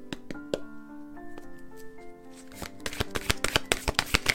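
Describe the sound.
Tarot cards are shuffled by hand, producing many quick, crisp flicking clicks that grow dense and loud in the second half. Soft sustained musical notes and a few light taps come before them.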